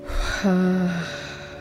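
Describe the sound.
A slow exhale during a relaxation breathing exercise, heard as a soft, breathy sigh with a short voiced tone in the middle, fading gently against a low, steady background.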